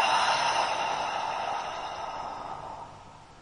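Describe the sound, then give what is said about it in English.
A deep, slow breath is released through the mouth during a mindfulness breathing exercise. It is one long, airy exhale that starts strong and gradually fades away, with no talk. “And another deep breath in through the nose Deep exhale, letting go through the mouth.”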